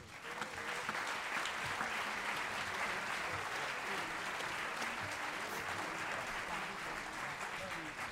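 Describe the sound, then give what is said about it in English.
An audience applauds to welcome a singer to the stage at a big-band jazz concert. The clapping is dense and even, holding at a steady level for about eight seconds with no voices over it. “we're going to bring to the stage, put your hands together and welcome Mr. Danny Quintero.”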